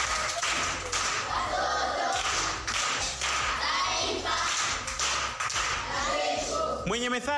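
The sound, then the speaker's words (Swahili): Applause for a pupil at a primary school proverb contest: many hands clapping in a dense, steady patter that holds for several seconds, with a voice rising briefly near the end. “Makofi kwa shangazi.”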